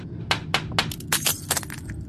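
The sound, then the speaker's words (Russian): A stunned crow knocking against a cracked window pane: a rapid run of many sharp, bright glassy taps and clinks in an irregular rhythm over a low background rumble. “видя, как снаружи в треснутое стекло долбится оглушенная ворона”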